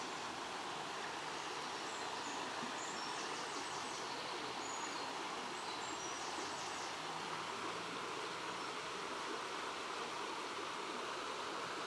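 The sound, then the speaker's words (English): A fishless stream flowing in shade gives a steady, faint, even rush of water that runs unbroken from start to finish. “A fishless stream. In shade.”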